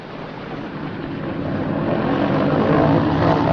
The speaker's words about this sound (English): The plane's underside skims smoothly across the water.